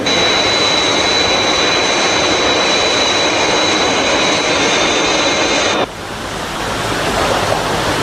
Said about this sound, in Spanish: atravesamos la barrera del sonido. Vamos a nivelar el vuelo.